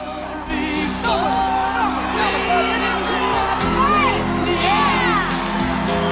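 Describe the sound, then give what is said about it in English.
A crowd on its feet cheering a new champion, full of high whoops and shouts rising over a steady roar of many voices, sustained and loud from start to finish. “The crowd are all on their feet, applauding and cheering.”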